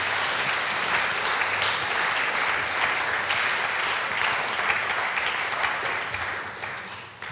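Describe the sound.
Warm audience applause welcoming two speakers to the front, steady and dense for several seconds before easing off near the end.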